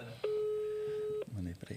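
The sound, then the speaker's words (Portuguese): A phone call being placed to a father: a single steady electronic tone that holds for about a second, then a voice speaks. “Vou ligar pro meu pai.”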